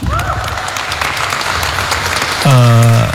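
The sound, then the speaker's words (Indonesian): Audience applause for the group Indonesia Baru: a dense, steady clatter of clapping runs throughout, with a voice briefly heard at the start and a louder sustained voiced tone rising over the clapping near the end. “Yang pertama kita beri applause dulu kepada Indonesia Baru.”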